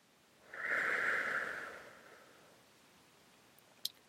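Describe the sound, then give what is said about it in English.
One slow, breathy exhale through open lips during a guided breathing exercise: a soft, steady hiss lasting about a second and a half that tapers off, with a faint click near the end. “Breathe out slowly through open lips.”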